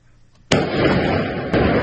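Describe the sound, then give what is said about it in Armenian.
Gunshots ring out at midnight near the residence of Artsakh's president, captured on amateur video: two sharp cracks about a second apart. Each is followed by a dense, sustained noisy wash. “Կեսգիշերին Արցախի նախագահի նստավայրի մոտ կրակոցներ են հնչել։”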